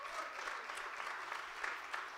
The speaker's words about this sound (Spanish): Denle ese aplauso a Jesús hoy.